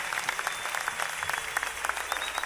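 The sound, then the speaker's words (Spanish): A church audience applauds during a worship service: a continuous wash of many hands clapping, fairly quiet and steady, with small irregular peaks from individual claps. “Su aplauso al Señor, concluido con todo su corazón.”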